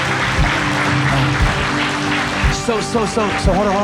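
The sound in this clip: Applause from a church audience cheering for new believers, moderate clapping partly masked by music and voices, with tonal sounds rising and falling toward the end.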